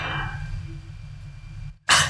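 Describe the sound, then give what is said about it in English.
A single brief, sharp cough bursts out at the end, loud and breathy, after a stretch of low, steady background hum and a moment of near silence. “Hold on while I cough, because I cough when you're like...”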